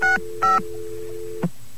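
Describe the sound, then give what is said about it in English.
Touch-tone keypad beeps on a phone line after touch-tone service was switched off: two short dual-tone bursts sound over a steady dial tone that never stops, followed by a brief click. “You hit a tone, but your dial tone doesn't go away.”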